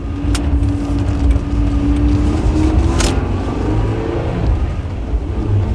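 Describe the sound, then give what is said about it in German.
A car engine drones steadily as the car drives close behind another vehicle, a sustained mid-pitched hum with a slight rise in tone partway through, under continuous road noise. “Fahren Sie bitte hinterher, Gordon. Bleiben Sie hinter ihm. Wenn ich es Ihnen sage, beschleunigen Sie und setzen sich neben ihn.”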